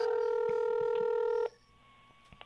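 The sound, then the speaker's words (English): A steady dual-pitched keypad tone from a phone dialing a scammer's refund number holds for about a second and a half, then cuts off into near-silence with a few faint clicks. “we're gonna call a couple of these numbers from these scammers”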